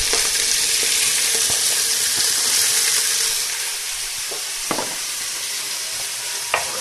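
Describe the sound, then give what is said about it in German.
Sliced meat (Geschnetzeltes) sizzles loudly as it fries in a pan, a bright, steady hiss that drops a little in level partway through. A couple of soft clicks from the pan break the sizzle near the end, and nobody speaks. “Und dann nehme ich jetzt das Geschnetzelte und schmeiße das mit da rein.”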